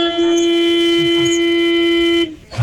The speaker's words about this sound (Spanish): Es un pito que suena fuerte, un pito. Oiga, largo. Este pito. Oiga, tiene el pito este largo.